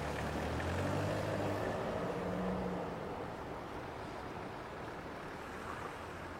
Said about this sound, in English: She watches the van drive away into the night.